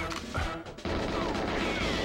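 A rocket launcher explosion in the GoldenEye video game: a dense, noisy blast that jumps sharply in loudness partway through and stays as a thick roar to the end.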